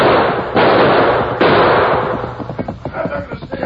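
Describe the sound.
Gunshots in a Western drama gunfight, two sharp, loud cracks over a dense, steady wash of noise, followed by a run of quicker, smaller bangs.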